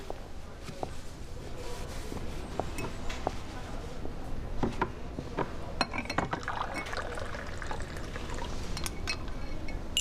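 Coffee pours into a cup in a law office as a steady, soft liquid trickle, with a few light clinks of glass or ceramic scattered throughout.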